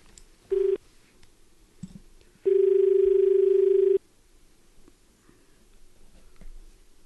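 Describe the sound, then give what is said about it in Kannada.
Telephone line tones of an incoming call: a short steady beep, then after a pause a longer unbroken tone of about one and a half seconds at the same pitch, over faint hiss. “ಮೊದಲ ದೂರವಾಣಿ ಕರೆ.”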